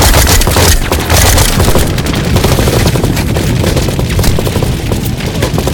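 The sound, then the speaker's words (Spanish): Suppressive gunfire coming from all sides, a dense, loud, unbroken barrage of automatic bursts and single shots that stays heavy throughout. “vienen esos disparos? ¡De todos lados! ¡Fuego de supresión!”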